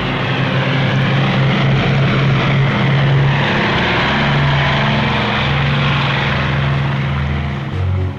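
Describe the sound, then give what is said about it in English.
Heavy bomber aircraft with propeller engines, from a squadron that sank a battleship, loaded with 12,000-pound bombs. A loud, steady, throbbing engine roar fills the whole clip without a break. “Remember, this is the squadron which sank the Tirpitz, and now they're off for Berchtesgaden with 12,000 pounders. And there she goes! The marvelous sight as she races by!”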